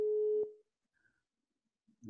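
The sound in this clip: A telephone call tone sounds while a number is dialed: a steady, low, even tone holds for about half a second, then cuts off into silence, and another tone starts right at the end. No voices are heard.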